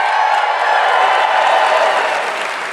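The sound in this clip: Live audience cheering and applauding at the Robert and Judy Newman Center for the Performing Arts in Denver, Colorado: a dense, steady wash of crowd noise that holds loud throughout and eases slightly near the end.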